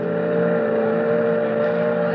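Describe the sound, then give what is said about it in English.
Engine drone of an excursion boat, used as a radio play effect: a steady, even hum with a constant low tone that holds at the same level throughout, with no talk over it. “Gee, it's nice riding out on the boat, ain't it, Grandpa? I never said there was anything wrong with the boat. The boat's all right.”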